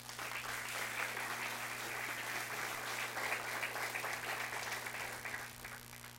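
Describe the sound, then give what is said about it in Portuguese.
Congregation applause rings out in a church worship service, a dense, steady wash of many hands clapping that holds an even level throughout, with a low electrical hum beneath it. “E dê um aplauso ao Senhor.”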